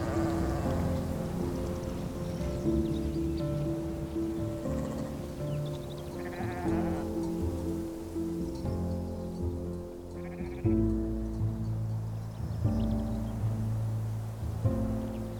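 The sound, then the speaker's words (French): Bleating from a flock of farm animals passing by on a grassy mountainside, with many overlapping calls of varied pitch sounding continuously and loudly throughout. “Il regarda passer le troupeau.”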